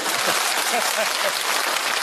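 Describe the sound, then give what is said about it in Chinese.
Applause from an audience at a stage performance: a steady, even wash of clapping at moderate volume that holds for the whole stretch. “谢谢各位朋友稀稀拉拉的掌声，谢谢大家。”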